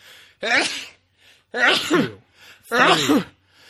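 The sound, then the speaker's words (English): Repeated sneezing from one person: three loud, forceful sneezes in a row, each with a brief intake of breath before it and short pauses between. “I fucking knew you never sneeze less than six times.”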